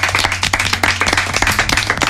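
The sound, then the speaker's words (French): An audience clapping in a dense, fast patter of many overlapping claps that stays loud and even throughout, over a faint low hum. “applaudissez-vous”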